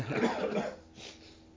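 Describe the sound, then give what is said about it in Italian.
A person coughs during a religious study class: one short, harsh cough with a breathy tail, then a fainter rasp. The sound is quiet overall. “Mi sa che domani con il caffè dobbiamo distribuire un sciroppo per la tosse, che siamo tutti tossenti.”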